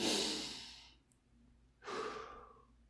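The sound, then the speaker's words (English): A deep breath taken during a guided meditation: two long, breathy rushes of air separated by a short quiet gap, the second softer and sigh-like, with no talking. “Deep breath.”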